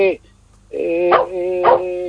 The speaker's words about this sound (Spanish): Pero ¿a quién le está ladrando? Porque algo está pidiendo, algo está avisando.